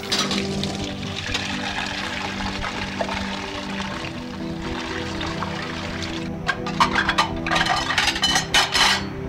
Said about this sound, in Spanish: lava afanada las tazas